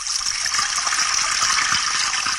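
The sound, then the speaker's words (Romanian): Liquid poured into a wine glass at a restaurant table: a steady, bright hissing gush of pouring that runs evenly throughout without breaks. “Te rog, toarnă-mi și mie vinul în pahar.”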